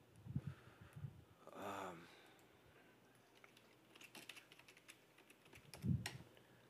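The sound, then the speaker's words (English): Fast typing on a computer keyboard, a quiet run of quick, uneven key clicks with a short vocal sound early on. “You are a fast typer, sir. I type somewhere between 50 and 60 words per minute.”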